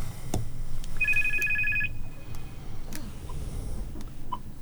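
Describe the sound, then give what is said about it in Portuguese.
A telephone rings with an incoming call to a radio show: one short electronic ring burst of rapid pulsing tones, set against a low steady background hum. “Vamos ver quem é que nos está a ligar”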